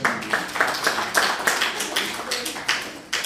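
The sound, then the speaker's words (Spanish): Hand clapping during a language class, a quick run of about a dozen sharp claps in an uneven rhythm with no voices. “Aplaudo.”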